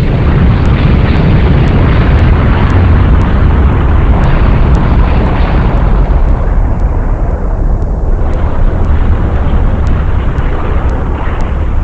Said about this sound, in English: The Earth is destroyed and Radio Free Cybertron with it.